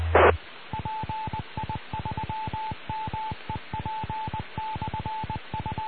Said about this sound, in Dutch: tijdens de morsepiepjes ging de repeater weer op slot. Die kon daar niet tegen.